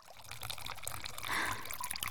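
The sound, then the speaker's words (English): Hot water being poured over a person lying on a massage table, splashing steadily across the back. A continuous, even trickle and splash of moderate loudness swells slightly partway through, with no talk. “I'm going to start by pouring some nice, hot water over you.”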